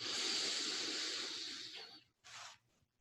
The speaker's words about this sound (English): let us complete this practice with three deep breaths together. Breathing in